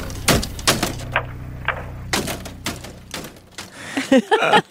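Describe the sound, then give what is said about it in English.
A circa-2008 payphone being slammed repeatedly into its booth makes many loud, sharp, irregular bangs and clacks, some in quick pairs, with a rattling cluster of hits at the end. “That last sound you hear is a payphone circa 2008 being slammed repeatedly into the booth.”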